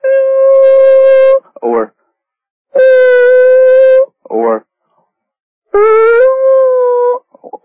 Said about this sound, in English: or here comes a doggy.